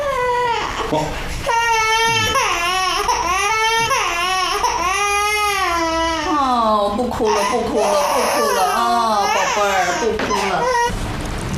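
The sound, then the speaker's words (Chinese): A baby cries in a loud, continuous wail that swells and falls in pitch, with short breaks between sobbing bursts. “不哭了，不哭了，不哭了啊，宝贝儿，不哭了。”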